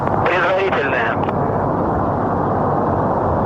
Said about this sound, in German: Engine start commanded. Ignition.